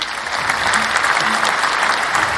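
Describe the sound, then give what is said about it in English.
Steady applause from a crowd, a dense, even patter of many clapping hands that holds a constant level from start to end with no talk. “Yes, we have to give them a round of applause”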